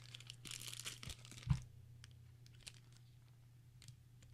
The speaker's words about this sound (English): And I kind of want to rip out one of these 0% disposables and see what it tastes like.